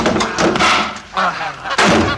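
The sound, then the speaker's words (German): A goose honks loudly in several harsh, abrupt bursts with short gaps between them, sounding alone with no talk. “Das ist die blöde Gans!”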